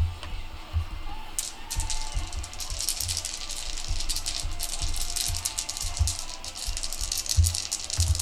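Dice rattle and clatter during a tabletop role-playing game, a quick, uneven run of many sharp clicks and knocks, fairly faint.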